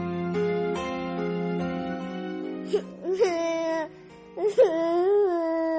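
A six-year-old boy crying, with a few drawn-out wails and whimpers that rise and fall in pitch, sounding over a steady tonal background.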